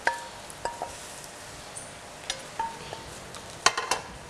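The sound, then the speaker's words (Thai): A utensil clinks against a bowl as stir-fried minced pork and shrimp are tossed with spicy salad dressing. Sparse, faint taps and light clinks come at irregular intervals, with no talk. “เอาส่วนผสมนี่นะคะที่มีเนื้อสัตว์นะคะก็คือหมูรวนเราเนี่ยนะคะใส่ในอ่างให้คลุกกับน้ำยำให้เข้ากันก่อนนะคะ”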